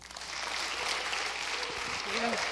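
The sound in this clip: Audience applause welcomes a preacher to the front at a church service: a steady, fairly faint wash of clapping that holds evenly throughout, with a voice briefly heard over it near the end.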